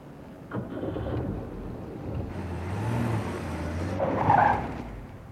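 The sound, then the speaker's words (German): A car turns in on a street and swerves. A steady engine rumble swells midway, then a brief, high tyre screech comes near the end. No one speaks. “Da biegt uns gegenüber gerade ein Wagen ein.”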